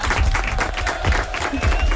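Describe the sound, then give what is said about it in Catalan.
Applause from a group clapping together on cue, a dense, steady patter of many hands that holds at an even level for about two seconds. “Molt bé, aplaudiments.”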